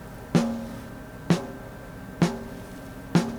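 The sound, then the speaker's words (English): Four evenly spaced, sharp snare drum hits, each with a crisp crack and a short ringing decay, captured by a dynamic microphone placed a couple of inches from the rim. “Okay, let's have a listen to the snare drum. We've got a 57 on the snare, a couple of inches away from the rim.”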